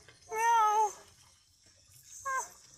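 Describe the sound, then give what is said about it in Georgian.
Kitten meowing twice: a longer, clear, high-pitched meow, then a shorter one after a pause, with nothing else loud around them. “პატარა ფისუნია.”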